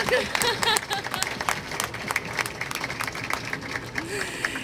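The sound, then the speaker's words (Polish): Applause for scouts at a World Youth Day event in Panama. Crowd clapping runs throughout with uneven swells, while voices speak and call out over it. “Brawa na harcerzy.”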